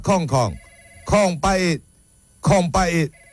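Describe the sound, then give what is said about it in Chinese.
A telephone rings in three pairs of short, bright harmonic bursts, each burst dipping slightly in pitch, with brief gaps between the pairs and no voices over it. “电话”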